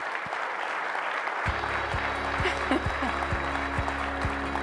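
Audience applause welcoming a guest to a live interview event: dense, steady clapping throughout, joined partway by a low, regularly pulsing musical beat underneath.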